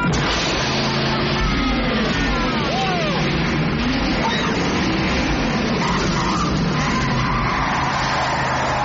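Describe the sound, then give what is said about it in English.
A car's turbo boost sound effect: a loud, continuous roar with sweeping, swooping tones and a skidding tire squeal. “Yeah, that turbo boost, that was something.”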